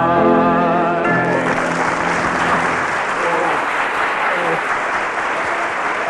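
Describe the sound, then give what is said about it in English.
Loud, sustained audience applause greets a sung duet performance, rising as the final held note of a singing voice ends and then continuing as a dense, steady wash of clapping. “So cheers from the audience.”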